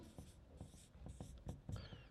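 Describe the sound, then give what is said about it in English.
A pen writes notes by hand in a series of soft, quiet scratching strokes that come in a fairly even rhythm, with short pauses between them and no talk over them. “Let me write this down here.”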